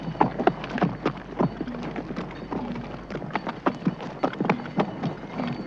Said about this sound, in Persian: بعد نایب پیاده افسار اسب را گرفته و از لابلای سنگلاخ می گذرد. پشت سرش بازرگان سوار بر اسب عبور می کند.